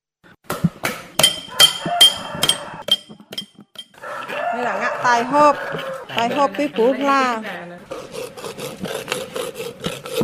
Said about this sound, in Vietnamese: Đó là tiếng chạm khắc bạc